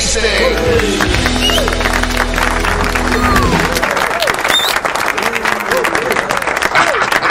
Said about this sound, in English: Oh yeah, we're clapping and everything.